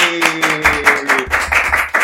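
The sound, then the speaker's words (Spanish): Rhythmic hand clapping in a steady, even beat of quick claps, with a voice heard underneath the clapping. “¡Aplausos para Rincones de Bali!”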